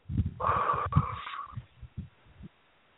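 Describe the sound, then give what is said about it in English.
A deep breath let out as a long, breathy exhale of about a second, followed by a few soft, low bumps before silence. “Take a deep breath. And now release.”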